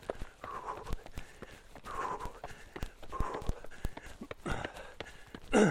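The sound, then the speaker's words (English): Footsteps climb a flight of outdoor steps in Glen Park on a sunny day, a steady run of many dull footfalls with a thump on each stride and a louder scuffing burst near the end. “Okay, I'm going to attack some steps here.”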